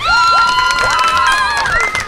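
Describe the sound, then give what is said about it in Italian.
Cheering and shouting from a class of children at a horse fair in Verona: many high, overlapping voices, loud and continuous for about two seconds. “Un applauso.”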